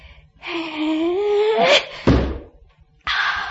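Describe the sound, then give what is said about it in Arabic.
A stone thrown onto a snake's head lands with a single heavy thud, preceded by a strained vocal cry that rises in pitch. A short, breathy vocal sound follows. “انا هقدم للحياة دي احسان وارمي الحجر ده فوق دماغ التعبان. هو مشغول بالحية مش واخد باله من حاجة تانية، ياه بق التعبان قد ايه، اما ارمي الحجر عليه”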